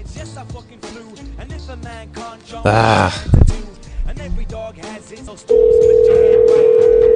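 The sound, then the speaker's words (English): Telephone line tone from a call to a phone number: after several seconds of voices and vocal noises, a steady, continuous mid-pitched tone starts abruptly and holds loudly to the end. “She's making me call a phone number instead of her Skype.”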